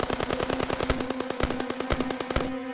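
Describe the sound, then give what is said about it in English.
Heavy gunfire from several shooters in a firefight: rapid automatic bursts with many closely spaced, sharp shots at a fast, slightly uneven rhythm, stopping just before the end with a brief ringing tail, and no voices. “about five or six of them were still firing. I was taking heavy, heavy fire.”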